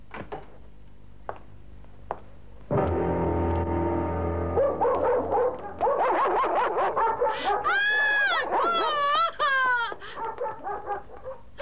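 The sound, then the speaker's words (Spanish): Dogs bark and yelp in a film scene, with repeated sharp yips and higher whining cries that grow busier toward the end, over a steady low background hum. “¡Tiene perros!”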